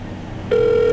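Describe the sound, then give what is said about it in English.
A phone line rings during a call to a friend: after a moment of faint hiss, a steady single ringing tone starts and holds to the end. “Are you calling Jackson? Yeah, are you?”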